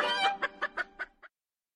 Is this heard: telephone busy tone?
no